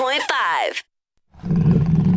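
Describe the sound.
A roar sound effect for a college's Jaguars mascot in a radio advertisement: one brief, loud, growling roar that drops in pitch and cuts off, followed by a short silence before talk begins.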